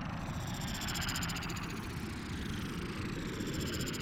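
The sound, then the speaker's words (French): A spaceship, a flying saucer, takes off and races through space at light speed: a continuous roaring rumble with a thin high whine on top, holding steady and fairly quiet throughout with no voices. “Le vaisseau décolle Il fend l'air et quitte l'atmosphère terrestre en une seconde, pour ensuite traverser l'espace à une vitesse inimaginable”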